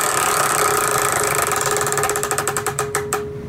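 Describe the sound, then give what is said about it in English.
A prize wheel spins with rapid, steady ticking from its clicker. The ticks spread out and grow sharper toward the end as the wheel slows, then fade into a soft tail. No voices. “why don't you spin the wheel? Here we go.”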